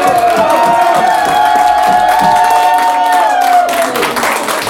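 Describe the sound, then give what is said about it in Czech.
Loud applause and cheering from an audience greeting a boy at a Czech show, steady clapping mixed with high shouting voices throughout, with a few people talking over it. “máš velký aplaus tady”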